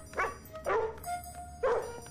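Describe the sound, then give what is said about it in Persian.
A herding sheepdog barks three times in short, yelping woofs with uneven pauses between them, fairly quiet over a low background hum. “احتمالاً از این سگ گله هاست. سگ باهوش من.”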